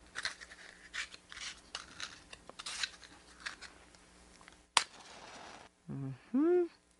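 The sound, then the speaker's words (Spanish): A match struck to light a gas stove for cooking cajeta: one sharp, scratchy strike followed by a short hissing flare, with talk before it and a voice after. “Bueno, ahora voy a encender la cocina de gas que tengo aquí al lado con un fósforo para empezar a hacer la cajeta.”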